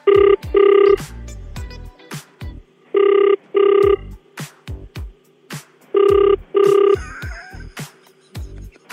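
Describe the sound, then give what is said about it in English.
Telephone ringback tone while calling someone back: three evenly spaced pairs of double rings, loud and steady, with scattered clicks and knocks in the gaps between them. “All right, let's call her back.”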